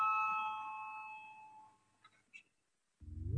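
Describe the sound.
A bell rings in a parliament chamber to call members to a vote: one sustained, clear tone that slowly fades over about two seconds, followed by a few faint clicks.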